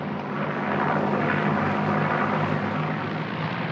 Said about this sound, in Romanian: Aterizează! A aterizat! Aterizat! Extraordinar! A executat aterizajul ca un pilot încercat.